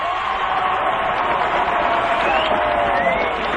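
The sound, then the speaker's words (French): Crowd ovation at an equestrian show jumping event, greeting a silver-medal rider after the final obstacle. A dense, loud, continuous roar of cheering and applause holds steady for the whole stretch. “Et là, ce sera l'ovation. Michel Vaillancourt, médaille d'argent.”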